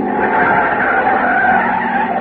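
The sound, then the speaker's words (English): Tires skidding on an old pre-war car as it speeds along. A loud, unbroken screeching roar holds steady for about two seconds, with no voices. “It's an old car, pre-war. It sounded like it was splitting at the seams.”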